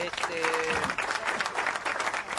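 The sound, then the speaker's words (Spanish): Applause for a singer who has just performed, a dense, continuous patter of clapping lasting a couple of seconds, with a brief steady tone sounding alongside it near the start. “Necesitamos aplauso para Natalutti.”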